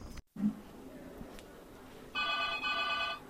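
A telephone rings once in a short burst with a tiny break in the middle, moderately loud over a low steady background hum.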